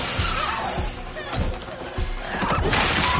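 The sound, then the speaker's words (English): A teapot is tossed aside and crashes in a kitchen with pots boiling on the stove. Several clattering impacts cut through dense noise, and voices are heard. “She runs to the stove, tossing a teapot on the way.”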